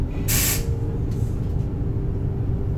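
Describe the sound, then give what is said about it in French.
Air-brake hiss of a train arriving at Saint-Chamond station: one sharp, loud burst of hiss, then a fainter, shorter one, over a steady low rumble. “Ah mince, on arrive en gare. Saint-Chamond.”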